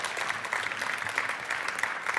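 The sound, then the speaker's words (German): An audience at a congress applauds a talk with a steady, even patter of many hands clapping and no voices. “Applaus, Applaus, Applaus, Applaus.”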